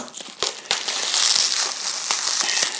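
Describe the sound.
Tight, thick packaging is cut open with loud, continuous crinkling and crackling, broken by many sharp snaps and pops.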